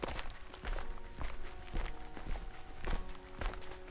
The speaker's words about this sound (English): So we're going to go for a little walk around the lake, and we're going to find a spot to record the bulk of the podcast.